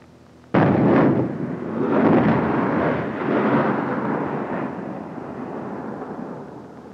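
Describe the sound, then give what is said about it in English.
High-explosive HEAT artillery rounds exploding after dark: a sudden, loud blast followed by deep, rolling booms that swell again a few times and slowly fade, with no voices. “Those were heat rounds, high explosive.”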